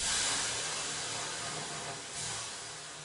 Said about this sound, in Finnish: Pistetään löylyä ja mennään seuraaviin kysymyksiin.